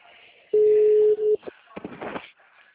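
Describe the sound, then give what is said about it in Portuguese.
After a phone call drops, a steady, low telephone tone sounds for under a second with a brief break near its end, followed by a voice talking. “Acabou caindo a ligação.”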